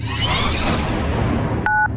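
Touch-tone telephone dialing. Two short, clear key beeps sound near the end as a number is keyed in, after a loud sweeping whoosh.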